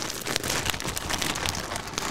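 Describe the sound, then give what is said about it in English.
Tape being peeled off a sealed, wrapped Christmas present makes a steady crackling, crinkly rustle that runs unbroken from start to finish at an even level. “How the hell have you sealed this up? I don't know, actually. I can't remember. I think there's tape at this side. Oh, okay. Undo the tape.”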